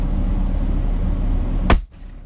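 A single sharp gunshot cracks out near the end, loud and abrupt over a steady low rumble, followed by a quick drop to near silence.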